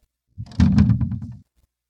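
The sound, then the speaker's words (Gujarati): A heavy door is shut from the outside on the ark in a retelling of the flood story: a single low, dull thud that swells and rumbles for about a second, then stops, with nothing else around it. “પછી ઈશ્વરે બારેથી દરવાજો બંધ કરી નાખ્યો.”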